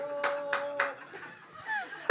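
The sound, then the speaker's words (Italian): A single person applauding in the front row of an audience: three sharp claps in a quick, even rhythm, followed by a faint voice. “Beh, uno applaudì. Uno in prima fila!”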